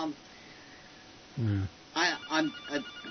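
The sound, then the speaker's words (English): A telephone rings in a few short, bright bursts with a slightly wavering tone, each ring separated by brief gaps. “Phone. Go ahead and answer it.”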